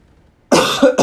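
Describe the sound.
Coughing from something stuck in the throat: a harsh, loud burst followed by a second shorter cough, heard alone after silence.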